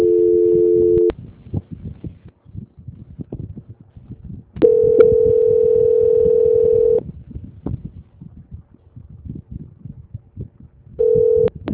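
Telephone line tones during a call transfer: three steady, mid-pitched tone bursts, the middle one held longest, over a constant crackling line hiss. No voices are heard.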